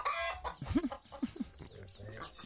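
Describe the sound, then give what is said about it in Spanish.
Chickens cluck in a henhouse: four short, throaty clucks in two quick pairs mid-clip over a low, steady background. “a este granjero, escuchadle pasando lista a su gallinero”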